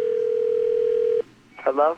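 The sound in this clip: A steady telephone dial tone at the start of a prank phone call, holding one even pitch for just over a second before cutting off. A brief voice follows.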